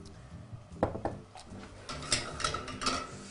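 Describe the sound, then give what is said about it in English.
An egg being cracked into pasta dough made from mixed flours with extra virgin olive oil: a few short knocks and clatters of kitchen utensils at moderate volume. “I'm just going to crack one egg into our pasta dough. And then I'm just going to add just a little bit of extra virgin olive oil in here with the egg.”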